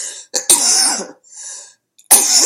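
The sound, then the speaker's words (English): Harsh, raspy coughing from a person with a chronic cough during a talk on meditation practice: a few loud bursts separated by short gaps, with no words spoken. “excuse me, get some water. I have this chronic cough that never goes away.”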